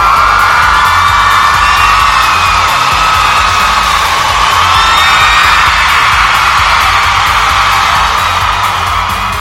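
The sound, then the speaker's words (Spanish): A crowd gives a loud ovation, a steady roar of cheering with shrill whistles and whoops running through it, sustained throughout before cutting off abruptly. “Es más, una ovación. ¡Qué bárbaro!”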